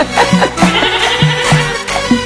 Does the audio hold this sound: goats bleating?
yes